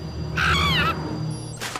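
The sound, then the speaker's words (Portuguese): A baby eagle calling in an animated scene: a wavering, nasal, caw-like squawk with a quivering pitch, followed by a brief, fainter second cry. “olha uma águia bebê! Oh, olha! Uma águia bebê nesta zona?”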